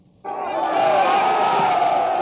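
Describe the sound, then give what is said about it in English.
A noisy crowd at a 1949 Labor Day Sunday veterans' meeting in Peekskill breaks into a loud roar. The noise starts abruptly and holds steady, with many shouting voices mixed together. “And now we hear Norman Barger. He's a veterans leader. He's referring to District Attorney Finelli. He appeals to the crowd again to quiet down.”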